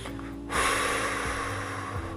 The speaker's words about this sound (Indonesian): Kemudian setelah kita bisa menahan secara maksimal, kita buang lewat mulut.